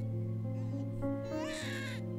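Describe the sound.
An abandoned, motherless baby cries faintly over a steady low hum, with a thin, wavering wail rising in pitch toward the end.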